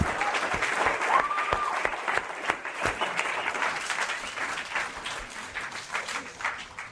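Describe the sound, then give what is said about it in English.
Audience applause breaks out in dense, sustained clapping from a crowd, holding steady throughout and easing slightly toward the end. “I'm just going to say congratulations. Give a big round.”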